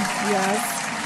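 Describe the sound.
An applause sound effect cued during a show: a dense, steady wash of crowd clapping with a voice talking over it.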